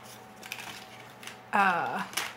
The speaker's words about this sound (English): Sorry, she's flopping all the cards around. I am. And again, they're plastic, so they will just kind of fly all over the place.